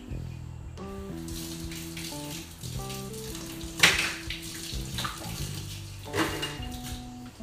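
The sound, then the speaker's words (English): Water runs from a kitchen sink tap as hands are rinsed between cooking steps, a steady hiss with splashy surges over soft, tonal background music. “Go over to the sink, have a little rinse of that on my hands.”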